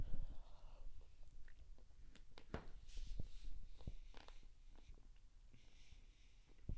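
Chewing on a bite of minty, chocolate-tasting food: soft, wet mouth clicks and small crunches at an irregular pace, fairly faint throughout.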